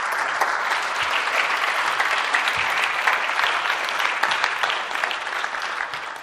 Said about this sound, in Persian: یه دست به افتخار خودتون بزنید.